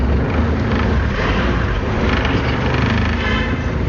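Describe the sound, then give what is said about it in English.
Steady engine and road noise of a car driving east on a road into the warm, dry Bugesera district of Rwanda, a continuous rushing hum at even loudness with no voices. “We are driving east from Kigali into Bugesera, one of Rwanda's warmer and drier districts.”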